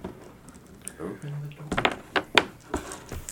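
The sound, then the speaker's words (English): A door buzzer gives one low, steady buzz lasting about half a second, followed by people talking. “Open the door. Door buzzes.”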